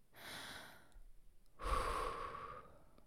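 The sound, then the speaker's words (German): Deep breathing during a relaxation exercise: a quiet, airy inhale, a pause, then a longer and slightly stronger exhale. “versuch einfach einmal tief ein- und ausatmen”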